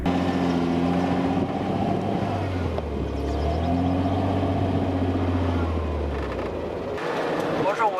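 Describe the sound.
A vehicle engine strains to climb a steep sand hill at high altitude while losing speed and revs, producing a steady, heavy low drone with a wavering pitch and rough wind noise throughout.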